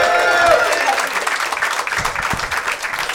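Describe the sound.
Applause from the audience at a comedy show after a comedian's set: dense, continuous clapping that stays loud throughout, with some crowd noise mixed in.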